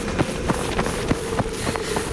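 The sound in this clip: Children run away on foot, their quick footsteps making an even, rapid patter of many light steps over steady background noise.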